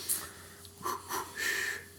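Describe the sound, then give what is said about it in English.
A person takes a deep breath: a few soft, airy inhales and exhales, quiet and alone with no talking. “Okay, I'll loosen up. Deep breath.”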